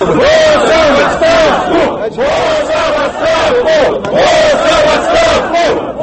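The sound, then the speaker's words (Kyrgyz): Rally crowd in Kaliningrad region shouting in unison, demanding Putin's and Boos's resignation during a protest over housing costs and vehicle taxes; loud, rhythmic chanting of a repeated phrase in several successive bursts, with no single voice standing out. “Бул Путин жана Боуз кызматтан кетишин талап кылган дагы бир кыйкырыктар.”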